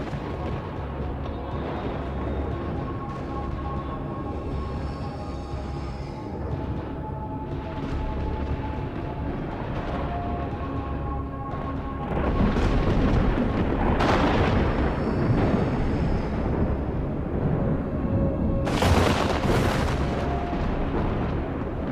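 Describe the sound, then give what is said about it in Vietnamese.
Thunder rumbling and crashing as a story sound effect, a long unbroken low roar that grows louder midway, with sharp crackling crashes bursting through it in the second half. “Sấm sét hết đợt này lại đến đợt khác liên miên không ngớt.”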